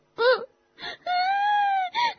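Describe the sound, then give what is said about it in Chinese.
Wailing cries voiced for a young cat distressed over its injured mother: four tonal, whimpering bursts, the longest a sustained wail in the middle, with a short sob to close. “你先别哭”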